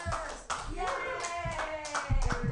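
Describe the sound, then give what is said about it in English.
An audience applauds to welcome a guest, with a steady patter of many hands clapping and cheering voices mixed in, moderately quiet throughout. “Put your hands together, everybody, for Brady Pearson.”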